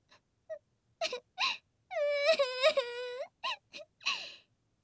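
A woman fakes crying with breathy whimpers and short sobbing gasps around a long wavering wail in the middle, then a few more sniffling whimpers, all alone and fairly soft.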